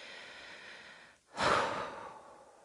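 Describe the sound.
Slow human breathing, taken in an unhurried moment: a brief hush, then one long, airy exhalation that swells quickly and fades gradually over the following second.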